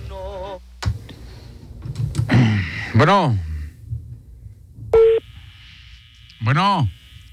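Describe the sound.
Telephone call tones on a call that goes unanswered: a few separate electronic tone bursts, some steady and some warbling up and down, with quieter noise in the gaps between them.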